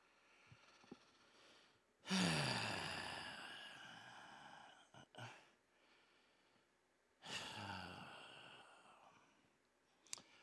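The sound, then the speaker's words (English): Heavy breathing: two long, loud, rushing breaths with a gap between them, ringed by faint mouth clicks and small snorts in an otherwise quiet stretch. “And yes, I just breathe very, very hard.”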